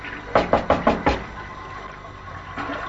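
Knocking on a toilet door where a woman is stuck inside: five firm, evenly spaced knocks in quick succession, followed by quiet background noise.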